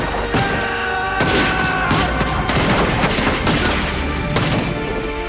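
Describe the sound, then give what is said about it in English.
Gunfire from soldiers shooting at a young samurai on a bridge in a film: loud, repeated gunshots in irregular bursts, forming a continuous volley with no talk. “Ogryn turns back as the soldiers fire on the young samurai.”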